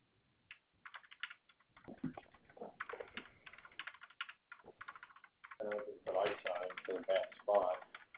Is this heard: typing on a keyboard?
yes